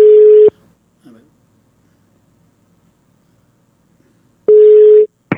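Telephone busy tone after a dropped call: two steady, mid-pitched buzzing tone bursts, each about half a second long and separated by a long near-silent gap, with a brief click at the very end.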